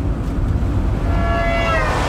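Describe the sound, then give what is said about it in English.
A car driving along a road at night gives a steady, loud low rumble of engine and tyre noise with no pauses, and a faint thin whine rises out of it toward the end. “This is the sound of someone driving along a road at night.”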